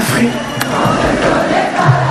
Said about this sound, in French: Un grand karaoké collectif spontané quand Mathieu Chédid dirige les 10 000 spectateurs.